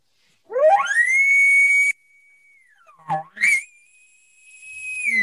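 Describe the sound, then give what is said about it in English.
A person's voice imitates a bull elk's double bugle: two high, whistle-like calls, each sweeping steeply upward into a long sustained tone. The first slides down into a short low grunt before the second call begins. “I have a signature bugle. It's a double bugle that I do. So it sounds something like this.”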